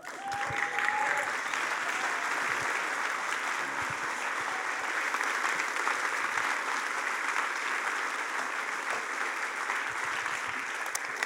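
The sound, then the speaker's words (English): A standing church audience applauds to welcome the preacher before a sermon. The clapping is thick and continuous, holds a steady, even level for several seconds and never breaks. “So could we just stand together, put our hands together, and welcome Adam Heather.”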